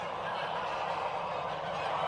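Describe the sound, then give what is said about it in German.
Geese honk in a steady, dense din as a flock of about 1500 birds on a goose farm in Lower Saxony is handled for vaccination; the overlapping calls blend into one continuous, moderately loud chorus with no break. “Zweimal im Jahr wird auf dem Gänsehof Tapphorn im niedersächsischen Lohne geimpft. Heute 1500 Tiere.”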